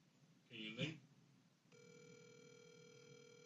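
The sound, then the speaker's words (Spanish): A phone call connecting: a brief stretch of speech gives way to a steady, continuous electronic tone that holds evenly until the end. “Estoy llamándolo aquí.”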